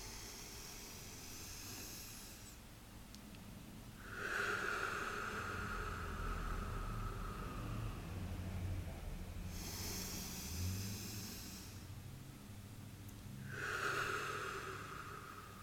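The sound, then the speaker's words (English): Deep, slow breaths during a guided breathing exercise: soft, airy inhales and exhales in a few long, drawn-out swells, each separated by brief quiet gaps, faint and alone. “let's just take a couple breaths and just feel connected to everyone at that source level. Deep inhale.”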